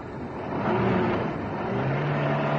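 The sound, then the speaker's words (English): A car engine drones steadily as the car turns a corner, a low rumble that swells slightly and then holds even, with no talking. “We're turning the corner now. Indicator out. Now we turn.”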